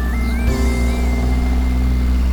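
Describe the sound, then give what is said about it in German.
A Ferrari crowded with passengers drives through a small coastal town, its engine a continuous, steady droning hum under a thin higher whine that wavers slightly in pitch. “Eine ältere Dame blieb fassungslos stehen und blickte dem überfüllten Ferrari mit offenem Mund hinterher.”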